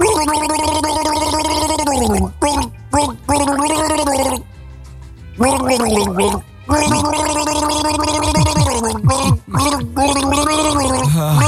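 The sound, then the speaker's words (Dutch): Gargling by a person, voiced, wavering tones bubbling through liquid in several loud bursts separated by brief silences, with the pitch sliding up and down within each burst. “er worden natuurlijk ook mensen misselijk van het gegorgel, snap ik wel. Maar we kunnen het nog één keer laten horen als je dat leuk vindt.”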